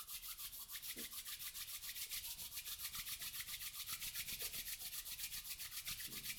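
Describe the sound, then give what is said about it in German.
Hands rub together in front of the chest, making a soft, steady swishing with a fast, even back-and-forth rhythm that continues throughout without any voices. “Kannst du deine Hände vor der Brust zusammenführen und reiben.”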